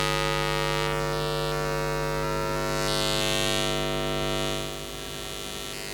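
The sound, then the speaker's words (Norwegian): A wall being listened to gives off a steady, loud, droning hum built of many layered sustained tones. It runs without a break, shifts slightly in texture and drops a little in level toward the end, with no voices. “Det er altså væggen, jeg lytter på nu.”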